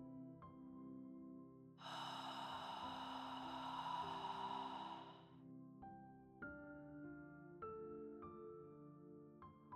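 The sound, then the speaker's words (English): Slow breathing in through the nose with the throat gently constricted makes one long, airy, hissing inhale lasting a few seconds, steady and soft, over quiet sustained musical tones. “Inhale through your nose, gently constricting the back of your throat, and listen to the sound of your breath.”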